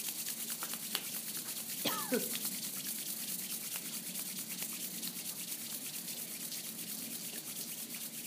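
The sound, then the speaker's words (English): Palms rubbed together as fast as possible to build warmth, a continuous brisk swishing friction made of rapid, even strokes, fairly faint over a quiet background. “take your palms together and rub them as fast and as fast and as fast and as fast and as fast as you can, creating warmth and heat and friction.”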